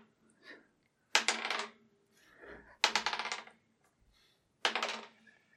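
Dice rolling on a table make three separate bursts of rapid clattering rattles. Each burst starts sharply and dies away quickly, with quiet gaps in between.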